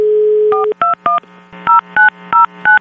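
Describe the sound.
Telephone number being dialed: a steady dial tone, then seven short touch-tone beeps in irregular groups, each a different clear pitch, over a faint low hum.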